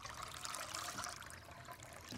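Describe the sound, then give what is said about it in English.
Milk pours from a bottle into a glass in a faint, steady trickling stream that keeps up without a break for about two seconds. “Daryl goes to the fridge, takes out a bottle of milk, warms some on the stove for Calvin, and pours a glass for himself.”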